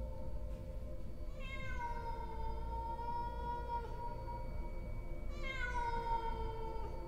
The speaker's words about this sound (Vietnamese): Trong đêm đen tĩnh lặng, con mèo nó cất lên những tiếng gừ gừ, gừ gừ trong cổ họng. Rồi sau đó nó bắt đầu kêu lên.